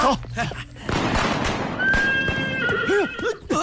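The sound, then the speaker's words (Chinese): A horse neighs in bright, arching whinnies with a clopping of hooves underneath, loud against steady background noise while voices talk over it. “哎呀，马到了”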